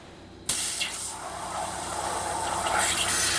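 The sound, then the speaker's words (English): An abrasive waterjet of water mixed with powdered garnet is forced through a hair-thin hole onto a metal sheet. A loud, harsh hiss bursts in abruptly and holds steady, turning slightly brighter toward the end. “That's the sound of water mixed with tiny jewels, powdered garnet, actually. The water is being forced through a hole the thickness of a human hair. It hits a sheet of metal with the speed of a bullet.”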